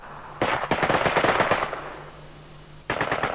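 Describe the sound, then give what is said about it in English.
Machine guns fire on soldiers' prisoners in two loud bursts of rapid, crackling shots separated by a brief lull. “They're shot in the back with machine guns.”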